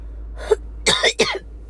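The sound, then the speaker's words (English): Coughing from a person: a lighter first cough followed by two harsher, throaty coughs in quick succession, heard alone without talk. “Y'all don't know why I'm coughing like that.”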